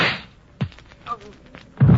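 Dull thumps of a blow knocking a man out in a scuffle: a few heavy, short thuds with scrappy noise between them, brief and low-pitched.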